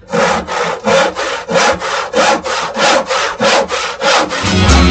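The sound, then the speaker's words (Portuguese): A hand saw cuts through wood in many steady back-and-forth strokes, each a loud, raspy burst with a short pause between, keeping an even rhythm throughout. “Negócio é serrar, hein? O negócio é serrar, meu filho.”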